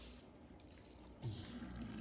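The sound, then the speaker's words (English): Water drains fast out of an unplugged machine's pipe, making a steady rushing, gurgling wash that grows louder about halfway through. “as you can see, I'm draining the water without lights. The machine is not plugged. It's draining really fast.”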